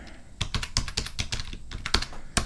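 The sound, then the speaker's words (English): Keys clattering on a computer keyboard as a password is typed, a quick, irregular run of many sharp clicks with brief pauses and a louder burst of keystrokes near the end. “Type in the old password there.”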